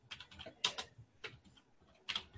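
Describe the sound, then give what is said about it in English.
Typing on a computer keyboard: a few irregular bursts of crisp key clicks with short pauses between them, alone with no talk. “And I'm going to just type her, I'm actually going to type Donna.”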